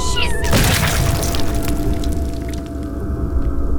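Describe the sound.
Explosion of a person in an audio drama, a dense, loud crashing burst early on that settles into sustained, rough rumbling and crackling noise.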